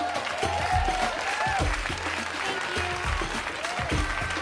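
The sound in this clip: Two people at a table applauding someone who walks over. The steady clapping is mixed with tonal sounds and low thumps, keeping an even level throughout.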